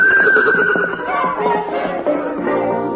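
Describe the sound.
A wild palomino stallion whinnies with a loud, quavering neigh that starts high and slides gradually lower over about three seconds.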